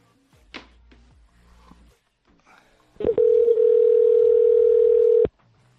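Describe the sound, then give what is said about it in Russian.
A steady, continuous telephone tone plays for about two seconds as a call is dialed during a prank call to a debt collector. Loud and unbroken, it follows a few faint clicks and cuts off abruptly. “Так, сейчас еще раз набираем. Так, набираю еще раз.”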